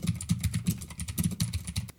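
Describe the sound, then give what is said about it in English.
Typing a quick chat message on a computer keyboard, a rapid, uneven run of many light key clicks that lasts throughout. “Right now, we're going to do it in real time. Sales team is ready to assist you. I'm just going to type them a quick message before we move on.”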